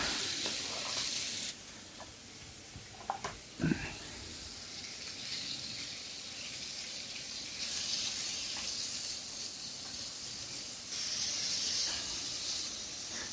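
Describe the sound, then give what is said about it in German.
Chicken pieces for a white curry frying in a pan give a steady, soft hissing sizzle throughout, with a few brief knocks near the start. “So, jetzt brate ich die Stücke von allen Seiten mal an so ein bisschen.”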